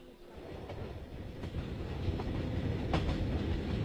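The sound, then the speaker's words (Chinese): A train rolls into Hangzhou station with a steady, loud rumble of wheels on rails, faint rhythmic clicks showing through and the noise swelling slightly toward the end. “旅客们，杭州车站到了，请在杭州下车的旅客抓紧时间下车。”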